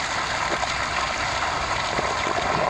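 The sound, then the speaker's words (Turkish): Toxic wastewater pours from a facility into a creek as a steady, fairly loud rushing flow, with a continuous watery hiss and no talk. “tesis dereye resmen bu elimde görmüş olduğunuz zehirli suları akıtıyor ve deremizi bizleri zehirlemeye devam ediyor.”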